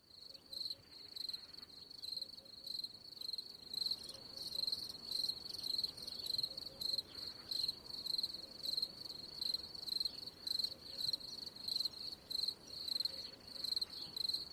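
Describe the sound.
Cicadas chirp outdoors in a high, buzzing drone that pulses in a steady rhythm through many repeated cycles. The sound is fairly faint and continuous, with no talk over it.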